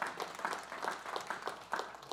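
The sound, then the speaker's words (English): Quiet clapping from a church audience applauding itself, soft, rhythmic hand claps repeating at an even pace, faint and slightly blurred together throughout. “You can clap for yourselves and for God.”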